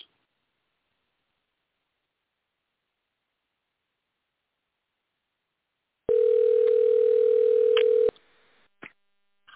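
A telephone dial tone sounds as a loud, steady, unbroken hum for about two seconds after a long silence, then cuts off, leaving a few faint clicks.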